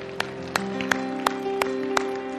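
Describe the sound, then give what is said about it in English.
A church audience claps to praise the Lord: six sharp claps in an even, steady rhythm over sustained musical tones. “Give the Lord a hand clap today.”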